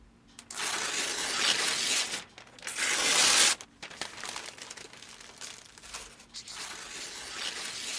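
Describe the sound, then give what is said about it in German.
An old paper plan is torn up in bursts of dry ripping and crinkling. Two loud tears come in the first three and a half seconds, followed by quieter, continuous rustling and crumpling to the end. “Ich zerreiß den alten Plan und du malst einen neuen.”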